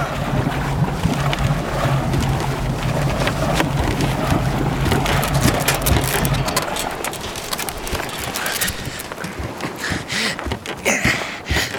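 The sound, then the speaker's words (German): A boat's engine runs as the boat arrives, a steady low motor drone under loud wind rush. Partway through, the drone cuts out, leaving wind noise and scattered knocks. “Das Boot ist zurück! Lass die Leiter runter und lass sie rauf!”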